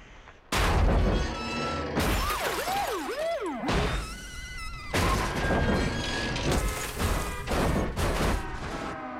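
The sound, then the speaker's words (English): A rolling RV crashes into a police car and another parked car and flattens both, producing a string of loud booming crashes and crunching impacts that continue for several seconds. “He turns round to see the RV has flattened both the cop's car and that of his new bosses.”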